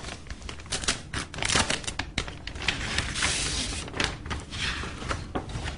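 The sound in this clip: An envelope is opened, with many short bursts of crackling, rustling paper and tearing over several seconds, at a fairly even, moderate loudness.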